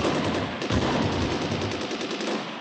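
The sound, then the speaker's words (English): Sustained rapid gunfire rattles without pause, a battle sound effect from a radio drama depicting an exchange of fire with the enemy in a jungle; the dense, loud crackle of shots runs steadily throughout with no voices. “After exchanging fire with the enemy, the platoon ran into the jungle to engage in battle.”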